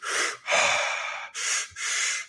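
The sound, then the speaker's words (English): Forceful breaths through the mouth in a breathing exercise of two breaths in and one out, heard as four loud, airy breaths in quick succession, the second one drawn out longer. “It's more of 2 breaths in, 1 breath out. So it'll go.”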